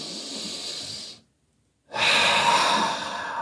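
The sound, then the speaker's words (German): A deliberate deep breath: a long, noisy inhale, then a brief silent pause, then a longer and louder exhale, with no talk. “Wir können uns jetzt entscheiden, mal einen tiefen Atemzug zu nehmen.”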